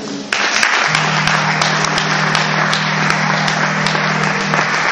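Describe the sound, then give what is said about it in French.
A church audience applauding during a worship service, loud dense clapping that breaks in abruptly after a quieter moment and carries on steadily, with a sustained low note underneath. “Acclamez Dieu.”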